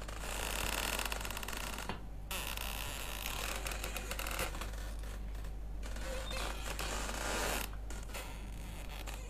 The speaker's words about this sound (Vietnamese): ở trong buồng vang lên có tiếng kẽo ca kẽo kẹt, giống như ai đang nằm đưa võng vậy